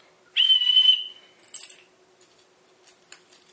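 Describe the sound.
A single whistle blast, the first of three differently pitched whistles, holds a steady high tone for about half a second, followed by faint clicks and light rustling.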